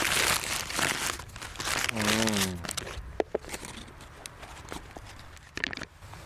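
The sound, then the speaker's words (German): Sandwiches are unwrapped from crinkly sandwich paper with a run of papery crinkling and rustling, then sharp separate crackles. A short voiced sound briefly rises over the paper. “Die Brote. Darf ich die schon mal auspacken?”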